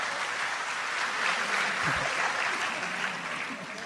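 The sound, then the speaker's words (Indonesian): Audience applause at an Islamic religious gathering: a dense, steady clatter of many hands clapping, holding at an even, fairly loud level for the full length with no voices over it. “Tepuk tangan untuk Gus Kausar gak apa-apa.”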